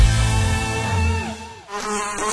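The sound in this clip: A housefly buzzes in a loud, steady drone with a wavering pitch. It briefly thins out midway, then returns at full strength.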